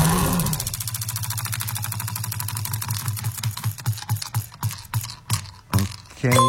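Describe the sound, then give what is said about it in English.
A prize wheel spun to pick a language for a game gives rapid ticking clicks that gradually slow and spread apart until only a few sharp, separate ticks remain as it comes to rest. “we're going to spin the wheel quickly, and then we'll see what language it is going to land on. So here we go, let's spin the wheel.”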